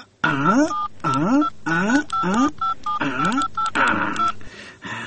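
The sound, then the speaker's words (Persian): A telephone number being dialed, with a quick run of short keypad tones mixed with a voice making repeated swooping sounds. “باش که به یک زنگ بزنم کی کجاست.”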